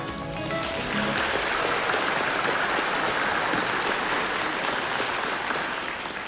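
Church audience applauding to welcome a summer preaching intern, a full, dense round of clapping that swells quickly and holds steady and loud for several seconds.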